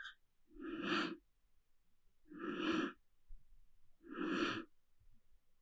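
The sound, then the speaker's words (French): Three long, slow yogic breaths during a pranayama exercise. Each is a loud, airy rush of air, with short quiet pauses between them and no talking. “Expire. Inspire.”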